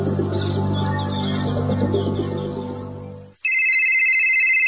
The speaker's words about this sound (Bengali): এত করে ফোন দিচ্ছি, ফোন ধরতেছো না কেন?